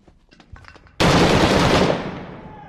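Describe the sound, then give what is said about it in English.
Gunfire erupts in a military shooter video game with enemies close by. Quiet scattered noises give way to a sudden loud, sustained burst of rapid shots, which then fades away. “Damn, they are close and firing.”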